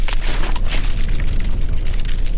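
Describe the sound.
A volcanic eruption explodes as gas-charged magma bursts out, making a dense, continuous roar of loud rushing noise over a heavy low rumble that holds steady throughout, with no distinct separate blasts and no voices.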